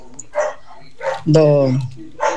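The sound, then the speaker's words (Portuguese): Dogs bark in a few short, separate bursts, with a longer, drawn-out tonal yelp in the middle. “Olha os cachorros.”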